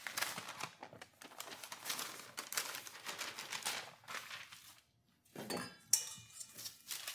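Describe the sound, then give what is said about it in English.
Soft metallic rattling and scraping as flour is re-sifted with sugar into a bowl for a gluten-free angel food cake, a faint, continuous gritty shuffle that pauses briefly near the end and then resumes. “I'm going to put it in a bowl and I'm going to re-sift it with the sugar. With some of the sugar.”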